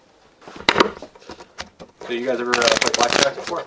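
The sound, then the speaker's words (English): Playing cards are shuffled and riffled before a blackjack game, a quick papery patter of flicks ending in a dense rippling riffle. Voices talk over part of the shuffling. “let's deal them up. Actually, do any of you know how to do, like, the bridge shuffle? I'm really bad at that.”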